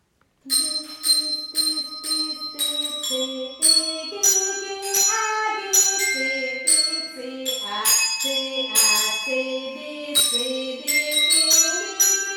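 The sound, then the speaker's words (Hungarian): Bells at a children's orchestra rehearsal ring out a scale, many bright struck notes following one another in a quick, even rhythm, each with a shimmering ring that overlaps the next, played loudly with no talk. “Zenekari próbára érkezünk. A teremben csak úgy röpködnek a skála hangjai. Hallgassák csak!”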